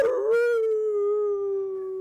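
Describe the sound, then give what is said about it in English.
A human voice howling in imitation of a wolf baying at the moon: one long, sustained, tonal howl that swells briefly at the start, then holds and sags slightly in pitch. “We're howling at the moon.”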